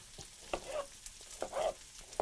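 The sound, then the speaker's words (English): Halved cherry tomatoes frying in a pan, giving a faint continuous sizzle broken by a few soft bursts of crackle and stirring bumps. “So we've got some cherry tomatoes here. I'm just going to half them and throw them in the pan as well.”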